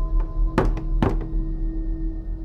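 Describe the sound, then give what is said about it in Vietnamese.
A few heavy knocks strike a door at night, two of them louder than the rest, with lighter taps between, over a low steady hum. “Tiếng gõ cửa vang lên cồm cộp trong đêm.”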